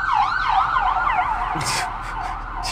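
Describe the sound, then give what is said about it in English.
Emergency vehicle sirens pass by, a loud wail sweeping rapidly up and down in a steady repeating cycle, joined by broader noisy bursts in the second half. “The amount of emergency vehicles that have gone by us. It's like four.”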